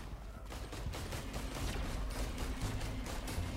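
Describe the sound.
Video game gunfire rattles as a dense, continuous run of rapid shots, fairly faint and even in level throughout, with no talk over it.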